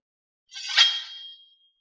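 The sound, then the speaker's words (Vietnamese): A dragon sword rings out as it flies: one bright metallic clang swells quickly, then a thin, high ringing tone lingers and fades over about a second. No voices are heard. “Giờ khắc này lại truyền ra một âm thanh như là lông ngâm. Một thanh long kiếm bay ra”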